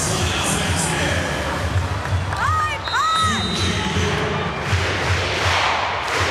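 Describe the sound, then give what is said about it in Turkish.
A home crowd cheers at a volleyball match in Ankara with a loud, sustained roar. A few high whistle-like shouts rise above it midway, and a voice talks over the noise. “22-14 Ankara'da seyircimizin desteği devam ediyor.”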